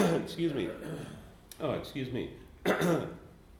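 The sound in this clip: Throat clearing from a man in the middle of talking, a few rough, raspy bursts at moderate loudness that run together with his speech.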